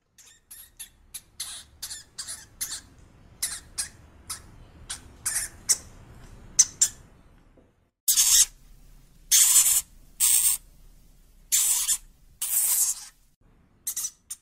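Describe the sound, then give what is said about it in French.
A hamster squeaks in many short, high-pitched chirps. Faint, quick squeaks come first, followed by a run of louder, longer squeals separated by brief pauses. “Oui, c'est un hamster.”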